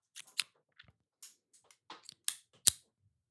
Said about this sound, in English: Yeah, so it's a good-looking cigar. All right, let's cut this thing, boys.